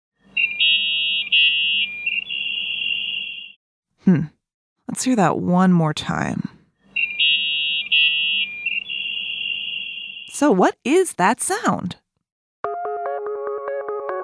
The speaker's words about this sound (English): The internet! The internet? Huh? Well, that's what the internet used to sound like.